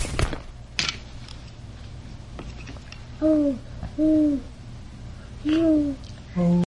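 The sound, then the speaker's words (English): Owl hooting: three drawn-out, steady hoots at a mid pitch, then a shorter fourth tone near the end. A couple of sharp knocks come first. “Oh, for owl, your favorite animal. You like owls, right?”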